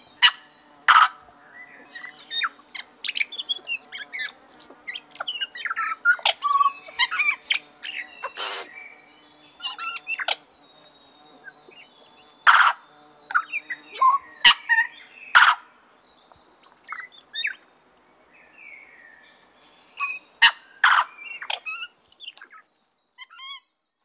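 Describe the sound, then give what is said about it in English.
Birdsong produced by switching airflow between the two chambers of the syrinx. Many sharp chirps, trills and calls come in irregular bursts separated by short pauses. “they switch the airflow over these two parts, two chambers in the syrinx, and just produce this wonderfully dense dance of sounds in their vocalization.”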